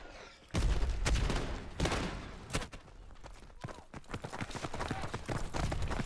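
An MP40 submachine gun firing in a World War II video game battle: repeated loud bursts of rapid, cracking shots, one after another, over a constant rumble of combat noise.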